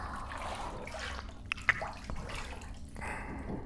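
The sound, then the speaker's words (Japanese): Water moving in a warm bath aboard a train: faint, gentle sloshing with a couple of sharp drips near the middle, quiet and with no voices. “温かいお湯に肩まで浸かってて、夕暮れの海を走る列車の中、”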